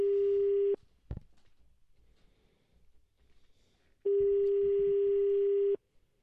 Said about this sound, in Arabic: إذن كنوصلوا اتصال بجماعة التزارين. طبعا ما كاينش رقم ثابت عندهم. هذا رقم المحمول ديال الرئيس هاد الجماعة التابعة لزاغورة.